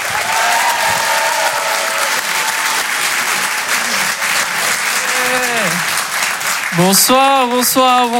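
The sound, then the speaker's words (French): Audience applause and cheering at a comedy club, dense, loud clapping that stays steady for the whole stretch, with a voice rising above the crowd noise near the end. “Faites du bruit s'il vous plaît pour Ilyes Mella.”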